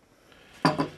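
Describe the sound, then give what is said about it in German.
A metal pot being handled after near silence, giving two quick clanking knocks in close succession, the first slightly louder and sharper than the second. “bringe ich ihm zur Freude und zur Überraschung einen Topf für die Pause”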